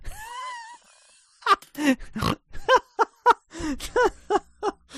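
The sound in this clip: A person makes many short, throaty, pig-like grunts in a quick, rhythmic series of loud bursts, preceded by a quieter, high, wavering sound.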